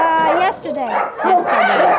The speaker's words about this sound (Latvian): Šis ir suns, kuram bija saimnieks. Suni atstāja un tas nonāca patversmē. Suns ir ļoti draudzīgs, kā redzat.